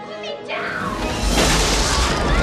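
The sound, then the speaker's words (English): A magical explosion erupts as witches burst out through a roof into the night. A short rising sweep gives way to a loud, dense roaring blast that swells near the midpoint and holds steady to the end. “In a bright blue and orange explosion, the witches fly out into the night, taking Danny with them”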